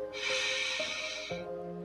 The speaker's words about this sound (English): Deep breath in